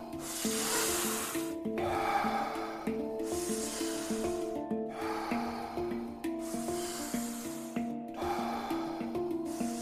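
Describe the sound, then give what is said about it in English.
Rhythmic breathing in and out during a guided breathwork round: several long, airy breath swells rise and fall in a steady cycle over sustained, layered musical tones. “Back into that rhythm. Breathe in, breathe out, breathe in, breathe out.”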